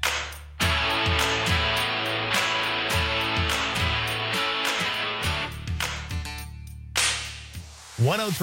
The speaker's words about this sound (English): FM sounds like this.